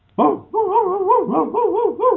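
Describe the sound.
A human voice imitates a shepherd dog barking: one sharp bark-like yelp, then a run of wavering, howl-like yelps in a voiced, whiny tone, loud and with no other sound.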